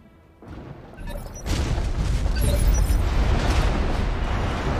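Explosion of a destroyed vehicle in a mech video game, a deep boom that builds from a quieter start into a loud, sustained rumbling roar.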